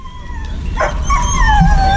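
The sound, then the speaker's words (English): Eight racing dogs in the starting traps before a race whine, yelp and howl: overlapping high, drawn-out cries that bend up and down in pitch over a steady low rumble. “This is the sound of 8 dogs in the traps getting ready to roll. The traps being the gates.”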